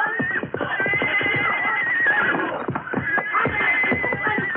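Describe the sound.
A saddled horse, injured and bleeding under its saddle, neighs and whinnies in rough, shaky calls almost without pause, while many hoof clops sound beneath.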